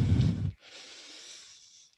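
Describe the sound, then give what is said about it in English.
A deep breath in during a guided exercise routine: a low rushing noise cuts off, then a long, even, airy inhale holds for over a second before fading out. “Deep breath in.”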